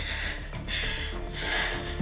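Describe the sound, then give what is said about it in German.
A long deep breath in from a patient sitting up for a chest examination with suspected pulmonary embolism, heard as a steady breathy hiss that fills the moment over a dense background. “Können Sie sich aufsetzen? Okay. Und jetzt atmen. Ein.”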